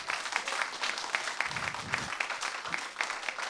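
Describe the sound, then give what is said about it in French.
Audience applause after a live music performance, a steady, dense wash of many hands clapping at moderate loudness with no pause, continuing throughout. “C'était Patrick Husson et Michel Tomaso qu'on peut encore applaudir, je pense.”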